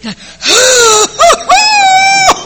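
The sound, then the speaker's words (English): A voice imitates gasping for breath after a swig of strong liquor, making strained, voiced wheezing gasps that rise and fall in pitch across a few loud bursts. “when you drink that stuff, you can't breathe. Like, that, right?”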